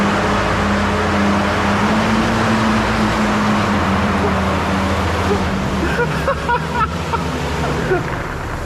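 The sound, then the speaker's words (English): A Zamboni ice resurfacing machine with a big sharp blade underneath skids around on ice, giving a loud, steady engine drone with a low hum and a washy scraping noise. “I don't like the way that's skidding around with that big sharp blade under it. I do. Oh, it says Zamboni on the front of it as well.”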